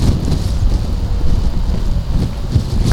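Wind blowing outdoors, buffeting the microphone in a continuous, loud, low rumble with uneven gusty swells throughout and no talk.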